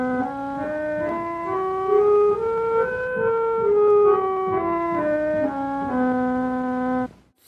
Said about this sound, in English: And here's another ancient Greek scale.